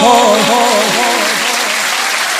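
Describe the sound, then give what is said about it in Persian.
Audience clapping hands at a devotional poetry recitation, a dense and steady wash of applause with a singing voice carried over it. “دست میزنی بی حال، دست نزن، دست بیاد بالا.”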